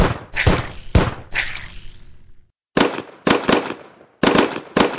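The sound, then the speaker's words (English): Gunfire during a shootout: many sharp, loud cracks in irregular bursts, broken by a brief pause before more shots follow. “I'm trying to help you! Stop shooting at me!”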